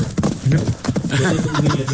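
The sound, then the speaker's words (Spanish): Horses' hooves clip-clop in a quick, irregular patter of knocks over a busy background of noise. “Suenan los caballos. ¡Ay, qué caballo!”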